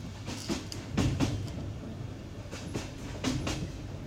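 A train travelling toward the Bulgarian border, its wheels clattering over rail joints in short clusters of clacks above a low, steady rumble, with quieter stretches between the bursts.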